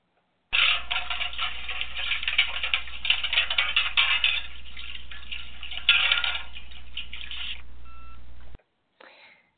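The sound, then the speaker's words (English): Metal plates being washed in a metal wash tub on the stove make a continuous clattering, jangling and sloshing for about eight seconds, then stop, followed by one brief extra burst. “if you hear that sound, which is the noise made by washing metal plates in a metal wash tub on the stove, then you know it's time for a little housekeeping.”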